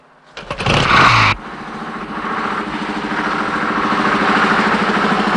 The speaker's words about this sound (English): The three motorcycle cops look at each other and smile before kick-starting their bikes.